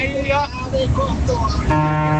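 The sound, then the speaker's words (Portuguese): Brazilian car horn honking, a sustained, steady, brassy blare that enters partway through after a stretch of busy voices and other noise. “E aí, vai, mais uma buzina. Mais uma buzina do Brasil.”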